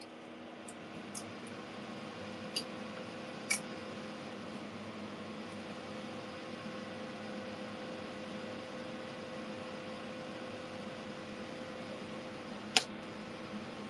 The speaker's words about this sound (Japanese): 換気扇つけるからうるさいかも。